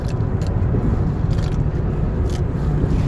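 Road noise inside a moving car: a steady low rumble of engine and tyres continues unbroken, with a few faint ticks on top and no talking.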